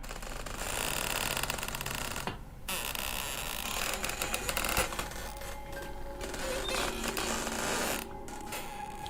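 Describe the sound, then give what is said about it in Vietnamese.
A heavy door creaking open slowly, a long, harsh, grinding creak with squeaky scraping textures and brief catches, heard alone without voices. “cửa từ từ mở ra. Tiếng cánh cửa rít lên nặng nề.”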